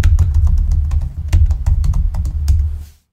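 Fingers type rapidly on a computer keyboard while someone looks something up, a dense run of irregular crisp key clicks over a low steady hum that stops abruptly near the end.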